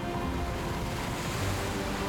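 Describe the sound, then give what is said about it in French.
Storm waves crash against the rocky quays of a small seaside town, a dense, steady roar of surf that stays loud and continuous throughout, without clearly separate breaks. “Les vagues de la tempête s'écrasaient sur les quais rocheux d'une petite ville du bord de mer.”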